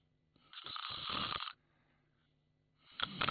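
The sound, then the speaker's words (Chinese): A man's voice imitates loud snoring, as of a man asleep in a chair: one long rasping snore, then after a pause the start of another that is cut off. “他一看窦尔敦靠着椅子把眼闭上，呼噜出来”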